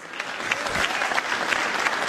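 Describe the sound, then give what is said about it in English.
Applause from a crowd, dense steady clapping that fills the whole two seconds at a fairly loud, even level, with no talking over it. “I think we've got to warm up the crowd for some applause.”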